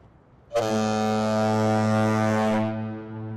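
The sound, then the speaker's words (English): A bridge foghorn sounds one long, deep, steady blast that is rich in harmonics and loud, lasting about two seconds before it cuts off and fades. “There's something reassuring about being able to hear those horns where they're supposed to be.”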